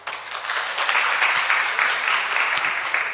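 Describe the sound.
Audience applause welcoming the speakers at a talk on novels and translation: dense, steady clapping that stays even and sustained throughout.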